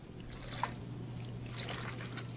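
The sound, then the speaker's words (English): Milk pours into an egg mixture for soaking bread in a soft, continuous trickle over a steady low hum. “Okay, now... I throw the bread in the egg mixture. I put a little bit of milk”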